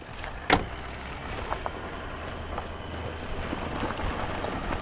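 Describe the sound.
A vehicle driving across a 1,000-hectare game farm divided into animal camps, giving a steady rushing rumble with wind buffeting and a brief knock near the start.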